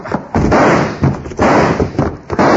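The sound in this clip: Gunshots ring out in a radio drama shootout, a few loud, booming reports with heavy rumbling tails following one another over about three seconds.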